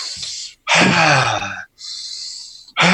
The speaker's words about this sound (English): you just like really loud, kind of big breaths.